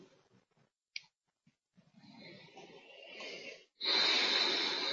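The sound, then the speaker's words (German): A slow, deep, deliberate breath during a guided meditation: a long airy inhale builds gradually, then a brief pause gives way to a louder, rushing exhale, preceded by a few faint soft breath noises. “Ich atme jetzt ganz bewusst tief ein und aus, so wie ich kann.”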